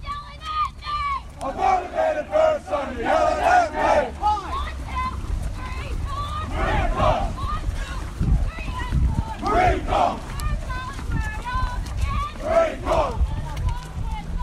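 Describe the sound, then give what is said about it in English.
Hundreds of Marines on a formation run call cadence in unison, their loud chanted lines rising and falling in a steady repeating rhythm over a low, regular thud of feet. “Hundreds of Marines out on a formation run, calling cadence and moving in unison.”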